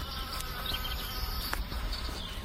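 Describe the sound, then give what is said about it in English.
Bees flying by in a quiet park in the Bronx beside the East River, a steady, continuous insect buzz with faint wing whine and soft background hiss, heard without any voices. “today is a quiet and peaceful day in the park with the sounds of bees flying”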